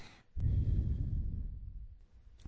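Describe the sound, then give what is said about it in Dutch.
A deep breath, drawn in through the nose and let out through the mouth, makes one long, breathy rush of air that swells quickly, then slowly fades. A short, faint breath follows at the end. “En adem weer heel diep door je neus. En uit door je mond.”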